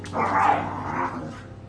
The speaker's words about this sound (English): As I watch my dog spaz around